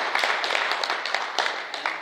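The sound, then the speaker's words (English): Congregation clapping during a church worship service, a dense, steady patter of many hands lasting about two seconds at moderate volume. “you can give it a clap, amen?”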